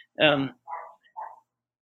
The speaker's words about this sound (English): sorry if you hear the dog barking